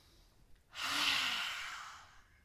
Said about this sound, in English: open your mouth, stick out your tongue. Inhale. Last one, inhale.